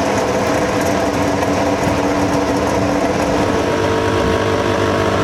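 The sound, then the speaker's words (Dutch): Formula 1 engines idling in the pit area amid tyre warmers: a dense, steady, high-pitched mechanical buzz that drones on without a break and holds an even level throughout. “geluid van Formule 1 motoren die stationair draaien”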